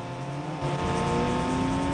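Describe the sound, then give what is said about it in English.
Engines of a fleet of motorbikes surrounding a car, a dense droning roar with a rising tone that grows slightly louder after the first moments and holds steady to the end. “A fleet of motorbikes surround them.”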